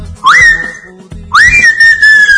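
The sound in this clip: A person whistling in imitation of a martineta (tinamou bird): two loud whistles, each sweeping quickly upward and then holding a steady high note. The second whistle lasts longer than the first.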